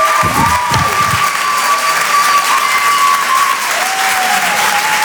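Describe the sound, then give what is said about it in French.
Comedy club audience applause, steady and loud, a dense wash of clapping with some cheering that holds without letting up. “Faites du bruit s'il vous plaît pour Lala sur Rire et Chanson.”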